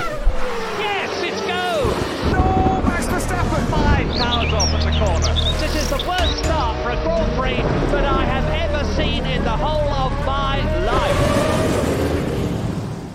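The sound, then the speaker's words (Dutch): A weather jingle plays as a short bumper: loud, dense and busy, with sweeping, voice-like tones and a heavy low rumble running steadily for about thirteen seconds. “Is het de moeite waard om het bumpertje van het weer in te starten?”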